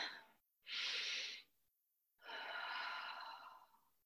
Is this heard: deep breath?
yes